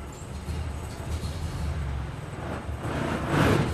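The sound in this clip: Engine of an old vehicle with a crash gearbox, shifted down a gear. A steady low engine rumble runs throughout, and a louder rough burst of noise comes near the end.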